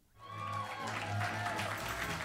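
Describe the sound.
A live audience at a comedy theater show applauds, the clapping swelling in quickly and then holding as a dense, steady patter with a few voices mixed in.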